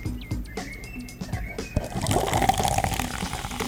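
Sparkling grapefruit rosé is opened and poured: a few sharp clicks and small taps, then a steady, fizzing rush of liquid that grows louder and bubbles on to the end.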